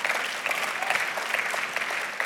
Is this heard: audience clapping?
yes